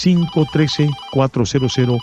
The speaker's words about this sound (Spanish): Voy a continuar porque ya tengo una nueva comunicación, me dice la astróloga Sara, que tenemos ya esa llamada al pendiente. Vamos a agarrar esta llamada, es de aquí de Cincinnati.